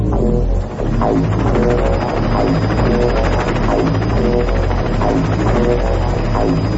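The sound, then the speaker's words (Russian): A brightly painted helicopter circles over a small town with greenhouses and concrete warehouse domes, its rotor producing a loud, steady, low throbbing drone with a dense hum that holds without a break for the whole stretch, with no voices. “Над городком кружил вертолет, ярко раскрашенный, нарядный.”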